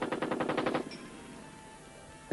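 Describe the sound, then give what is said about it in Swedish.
A rapid volley of about eight blank gunshots fired in quick succession, each a short sharp crack, followed by a pause and then one more abrupt report at the very end. The shots are fairly faint, with no voices. “Var kom de skotten ifrån?”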